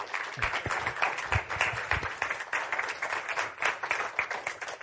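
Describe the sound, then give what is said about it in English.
Applause from a church audience welcoming a preacher as he comes out to preach at a morning service: dense, steady clapping with many overlapping hand claps, holding at an even level throughout with no voices. “let's give him a warm welcome uh, as he comes out to preach for us.”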